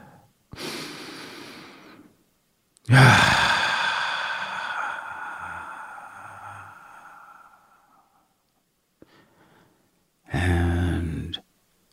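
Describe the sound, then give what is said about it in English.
A deep breath: a short inhale, then a long, slow, audible exhale that fades out, followed by another breath near the end. No other sounds are heard. “let's take a deep breath”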